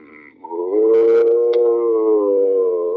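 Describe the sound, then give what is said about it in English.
An actor voices a zombie moan, imitating the creature with his throat. After a brief soft start, a drawn-out, howl-like groan holds a fairly steady pitch for more than two seconds, with nothing else heard. “Here's when we had, you know, actors come on and do interviews, we'd ask them to do their zombie sounds.”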